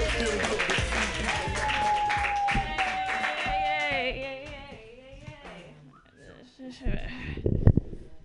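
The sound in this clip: Applause and cheering from a comedy show audience welcoming a comedian to the stage. A noisy burst is mixed with voices and fades out, then voices pick up again.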